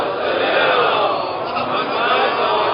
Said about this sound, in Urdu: محمد و آل محمد, بلند بلند نعرہ السلام